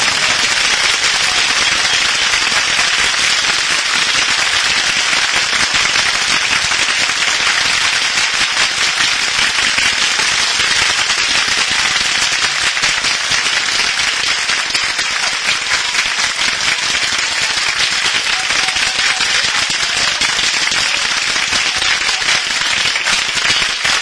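Sustained applause from an audience at a gathering, dense and loud hand clapping that runs without pause from start to end.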